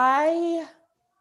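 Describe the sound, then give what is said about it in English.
A seven-month-old baby babbles in the background, one short voiced coo with a clear, slightly rising tone that holds briefly and then fades out within a second. “if you hear anybody babbling in the background, it is my 7-month-old.”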